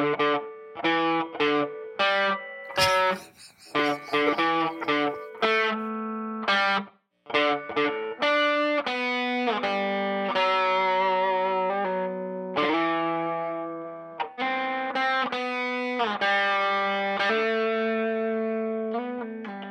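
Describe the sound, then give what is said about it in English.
A Supro Sahara electric guitar is played through distortion and effects, ringing out a run of loud single notes and chords, alone with no voices. “What kind of guitar is that, John? It sounds electric-y. Are you familiar with Supro?”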